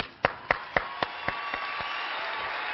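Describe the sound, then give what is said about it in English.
Crowd applause welcoming a speaker at a multi-campus church gathering, a steady wash of clapping with a series of evenly spaced, sharper claps standing out at the start and fading away. “Would you put your hands together, all of our campuses, and welcome Dave Ramsey.”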